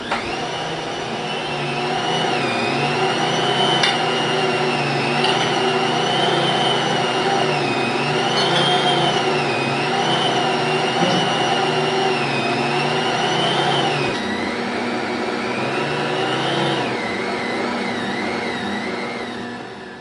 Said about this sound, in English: I'm going to turn the mixer on, and I'm going to let the Bosch do the work. It's going to knead that dough for 10 minutes.